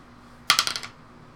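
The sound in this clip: Dice rolled on a table for a damage roll during a tabletop role-playing game: a quick burst of sharp clattering clicks that bounce and die away within half a second, heard alone.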